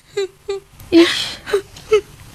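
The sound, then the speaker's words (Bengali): A woman cries in five short, wailing, whimpering sobs in an uneven rhythm. The middle sob is longer and breathier than the others. “মা কাঁদছে আবার”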